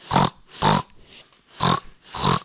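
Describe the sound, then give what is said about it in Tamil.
A pig grunts four times in short, rough, nasal bursts with an even rhythm, fairly loud and alone. “இது பேர் பன்னி சத்தம்.”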